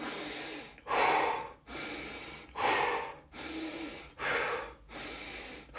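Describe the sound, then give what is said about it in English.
Breathing in through the nose and out through the mouth during a guided breath-work exercise: loud, airy breaths in an even, steady rhythm, inhales and exhales alternating about once a second over several cycles, with no talk. “Inhale, nose. Exhale, mouth. Create that pattern.”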